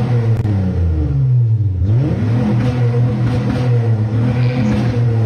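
A car engine revs on a two-step launch limiter, a loud, buzzing drone that dips in pitch briefly, climbs back and then holds at a steady, throbbing level.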